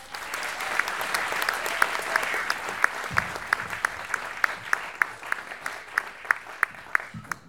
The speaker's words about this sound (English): you can clap for that